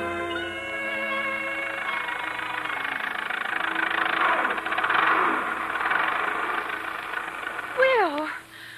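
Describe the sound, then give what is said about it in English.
An early automobile motor runs with a steady, even, humming rumble and a faint rattle, and voices are heard over it. “Something wrong with the motor?”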